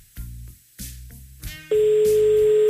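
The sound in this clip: A telephone tone while a call is being placed: a few short buzzy pulses, then a steady, continuous pitched tone that holds without a break to the end.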